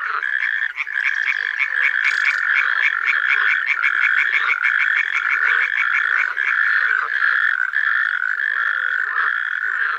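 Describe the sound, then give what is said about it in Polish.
A loud, continuous amphibian chorus in a small pond at a forest edge, with natterjack toads trilling and water frogs croaking. A dense, high, rapidly pulsed trill holds steady for the whole stretch, with no voices. “Motywem przewodnim jest przerywany terkot ropuch paskówek i towarzyszący mu rechot żab wodnych.”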